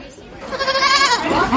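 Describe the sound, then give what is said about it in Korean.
Pygmy goat kids bleat in high, wavering, quavering cries that rise and fall in pitch, heard together with a person's voice. “바로 난쟁이 염소라고 부르는 작은 염소들입니다.”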